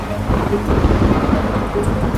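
Heavy rain pours steadily beneath low rolling thunder from an approaching storm: a dense, continuous, fairly loud roar with no voices.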